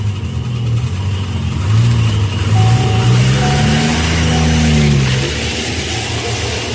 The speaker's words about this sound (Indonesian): aku langsung menancap gas pergi dari tempat itu.